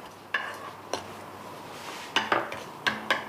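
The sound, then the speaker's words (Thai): A metal utensil clinks and scrapes in a pan while garlic and the white parts of scallions stir-fry in oil with a little salt for fried rice. Several bright clanks come in a few bursts over a faint, steady hiss. “แล้วเราก็จะผัดกระเทียมเนี่ยกับต้นหอมในส่วนของที่เป็นสีขาวเนี่ยค่ะให้หอมซะก่อน”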